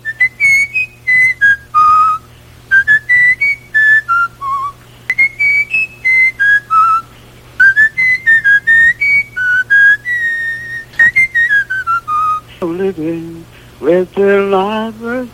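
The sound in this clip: A person whistles a tune imitating the trumpet part of a song, a bright string of quick, clear notes in rising and falling phrases, followed by a brief stretch of voice at the end.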